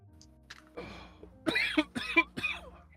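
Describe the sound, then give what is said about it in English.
Coughing: a few harsh, throaty coughs in a quick cluster, fairly faint, with a rough throat-clearing edge, after some quieter small sounds. “You should get that cough looked at”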